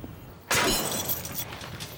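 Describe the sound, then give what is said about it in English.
A soldier smashes the lock on a barn. After a quiet start, one sharp, loud crash is followed by a rattling, rustling tail that slowly fades. “A soldier smashes the lock on a barn, and Ekius goes inside.”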